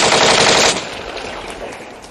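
Machine-gun fire as soldiers shoot at fleeing Nationalist troops: a loud, dense burst of rapid shots that abruptly drops to a softer, decaying rattle.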